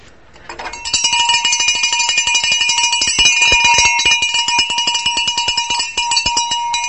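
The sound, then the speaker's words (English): A hand bell is rung loudly out front of a house to call children home for dinner. Rapid, continuous metallic clanging starts after a faint opening moment and keeps a bright, shrill ring to the end. “We just go out front and we get very obnoxious with this bell.”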